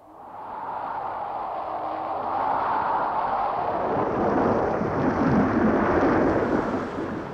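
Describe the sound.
A thunderstorm with wind rolls as a sustained, deep rumbling roar. It swells gradually and stays loud and continuous for about seven seconds, with no talk over it.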